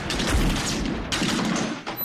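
A few sharp gunshots crack in a radio drama, each followed by a booming tail, with dense noisy reverberation between them.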